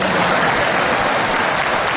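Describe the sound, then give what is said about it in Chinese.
An audience applauds actors at a stage performance, a steady and dense wash of clapping that stays loud and even throughout, with no voices. “好，谢谢大家热烈的掌声鼓励，您的掌声啊，对我们演员来说就是一针兴奋剂”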